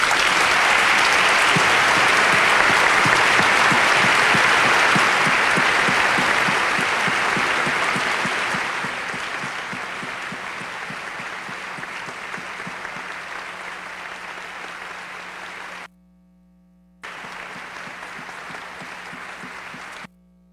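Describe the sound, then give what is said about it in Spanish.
An audience claps at an orchestra concert in tribute to a longtime double bassist. Loud, dense applause lasts about eight seconds, then eases into softer, steady clapping that continues. “Y quería pedir un aplauso a William.”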